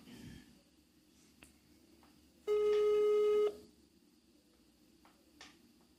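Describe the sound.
A phone call rings out unanswered: one steady electronic ringback tone lasting about a second sounds loudly over a quiet, faintly hissing line, with silence before and after.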